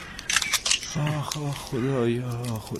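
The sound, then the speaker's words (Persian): A camera shutter firing as a photo of a dome is taken, with a few quick mechanical clicks at the start, then a person speaking. “عکس بگیر از اون گنبد گلشا.”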